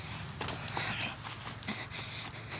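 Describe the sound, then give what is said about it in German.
Faint footsteps of someone running away near a forest, a quick, irregular patter of light thumps and scuffs over a soft background hiss. “Hilfe, da rennt jemand.”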